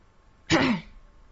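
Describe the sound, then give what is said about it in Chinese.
A short, rough cough heard from a doorway, one quick throaty burst that rises abruptly from near silence and fades within a fraction of a second. “门口传来了两声咳嗽”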